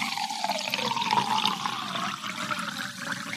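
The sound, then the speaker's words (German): Sparkling water is poured in a steady rushing stream with a bright, fizzing hiss that holds an even level throughout, with no talking over it. “Und wenn man das jetzt einschenkt, das Wasser, dann sprudelt das hier raus.”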